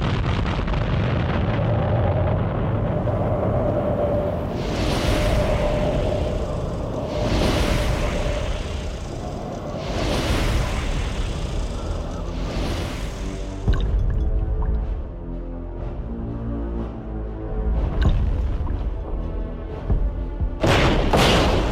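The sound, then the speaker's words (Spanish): Artillery shelling explosions strike around Berlin as several heavy booms at fairly regular intervals over a continuous low rumble. A further burst comes near the end. “La artillería.”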